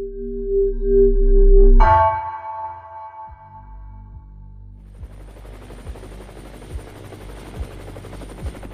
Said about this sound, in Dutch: De traumahelikopter reageert op een alarm dat 's ochtends vroeg om 7:50